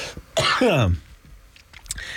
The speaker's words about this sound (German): Entschuldigung, ich glaube, da ist mir gerade eine Fliege in den Hals geflogen.